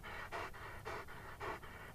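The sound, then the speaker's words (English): A still dog breathes with labored, rhythmic panting. Quiet rasping breaths repeat at a steady pace, with stronger pulses regularly spaced through the stretch. “Except for labored breathing, Border was still.”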